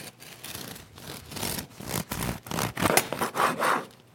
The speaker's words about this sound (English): He's going to rub it all over the top of the bread. Looks very good. Okay, that's good. Let's cut into this nice little one. Just cut at the end.